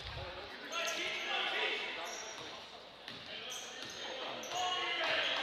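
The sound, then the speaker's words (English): A basketball is dribbled on the court during a high school boys' game between Exeter and Elizabethtown, its soft repeated thuds sitting under steady crowd noise. “Still rotating the ball with the dribble outside of three.”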